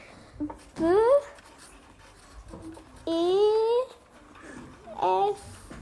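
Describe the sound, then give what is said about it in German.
Writing on paper comes in a few short bursts, some strokes squeaking with rising tones, with softer scratching and quiet gaps between them. “Ich fange mit meiner besten Freundin an. Deshalb schreibe ich über den ersten Rahmen beste Freundin.”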